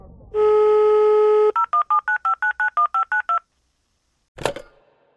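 Telephone keypad dialing tones: a steady tone is followed by a quick, evenly spaced run of short beeps. After a pause comes one brief noisy burst.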